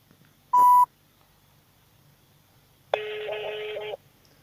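Telephone tones while dialing out to place a call: a short, sharp beep, then after a pause a longer, denser tone lasting about a second, both clear over quiet background.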